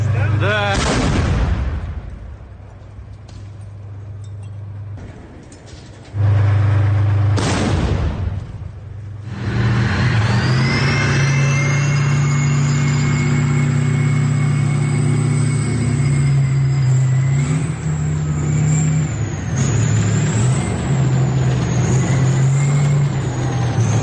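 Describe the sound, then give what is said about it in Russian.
A tank fires at the intersection of Svobody and Sadovaya streets in Bakhmut: heavy, booming blasts, then a sustained loud engine roar with a rising mechanical whine as it quickly changes position. “с которого танк ведет огонь. Это пересечение улиц Свободы и Садовой. После нескольких выстрелов танк быстро меняет позицию.”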